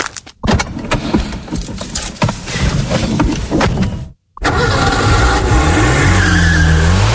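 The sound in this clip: Tires squeal and an engine roars as a Renault Clio is driven hard, loud and busy with screeching skids. The sound cuts out for a moment, then returns as revving with a rising pitch.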